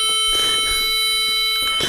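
A metronome holds one long, continuous electronic tone, steady and loud with several bright, stacked pitches, one of which cuts out shortly before the end.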